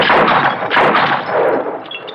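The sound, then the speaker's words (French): Revolver shots aimed at a bottle in a film scene: a few sharp, loud bangs in close succession, each followed by a ringing, metallic tail. “Dégaine et tire sur la bouteille avant d'avoir touché ton revolver.”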